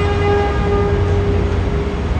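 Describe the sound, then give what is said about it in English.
Deep, steady rumble of a yellow diesel subway work train coming out of a tunnel into a station: a loud, continuous low roar with a sustained engine drone layered on top. “At the Union Square station, a deep rumble shakes the platform. Then a yellow behemoth emerges from the tunnel, belching diesel fumes and blowing hot air on all the waiting passengers.”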